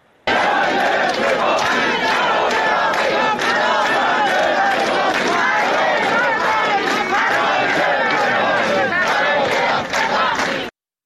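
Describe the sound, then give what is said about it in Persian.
Hundreds of teachers at a rally chant slogans together, a loud, dense wall of crowd voices that continues without pause for the whole stretch. “ویدیوهایی که منتشر شده نشون میده که صدها نفر در این شهر جمع شدن، دارن شعارهایی میدن، از جمله این که معلم به پاخی برای رفع تبعیض. صداشون رو داریم بشنویم با هم”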